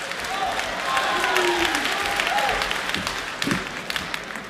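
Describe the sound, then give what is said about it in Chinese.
Applause from a live audience at a traditional Chinese crosstalk comedy show, a steady dense wash of clapping that swells and holds for several seconds, with a voice speaking over it near the end. “热烈掌声有请高小潘、尤宪超、韩硕为您带来传统相声师傅经，咱们掌声有请三位。”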